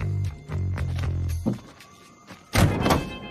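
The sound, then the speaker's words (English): A car boot is opened on a car parked at the foot of a sand dune. A few muffled clunks and thuds come first, then a short pause and a louder, harsher burst of mechanical noise near the end. “He opens up the boot to reveal an array of weapons and pulls out a sniper rifle.”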